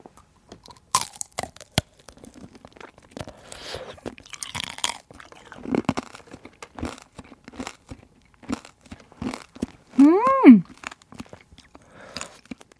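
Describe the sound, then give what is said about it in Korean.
Sticky tanghulu candied fruit is chewed slowly in close-up ASMR, giving many irregular, crisp crunches and crackles of the sugar shell, with a brief hummed vocal sound near the end. “이게 이에 많이 일단 붙기 때문에 되게 많이 천천히 씹어줘야 되는데”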